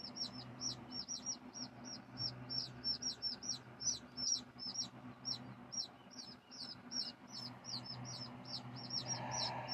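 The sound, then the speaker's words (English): Loud chicks chirping: many high, sharp peeps repeat in a quick, steady stream through the whole stretch, over a low continuous hum. “These chicks are so loud, giving me a headache.”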